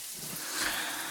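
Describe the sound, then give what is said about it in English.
Water from a running shower hisses in a steady, continuous wash of spray that stays even throughout. “One of those days where you come home, say, I love you, and then head straight upstairs to the shower where you stay for approximately 30 to 40 minutes?”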